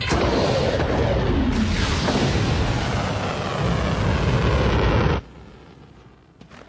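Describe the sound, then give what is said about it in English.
A missile launches with a loud, sustained roaring blast that lasts about five seconds, then cuts off abruptly and leaves a faint low rumble. “Launch the missile now!”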